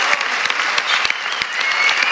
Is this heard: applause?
yes